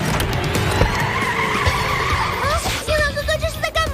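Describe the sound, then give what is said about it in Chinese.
Tire squeal from a race car drifting toward the edge of the track: a loud, sustained screech layered over a revving engine, with the pitch shifting as the slide continues. “正在往赛道边缘漂移，这个操作可是非常危险的呀！”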